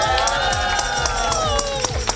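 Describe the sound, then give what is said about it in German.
A school class cheers together, many young voices shouting and whooping in a loud, sustained burst that holds steady throughout. “Ich würde sagen, wir machen einfach mal die Übergabe. Und auch da, wenn das passiert, machen wir nochmal einen gemeinschaftlichen Jubel, oder?”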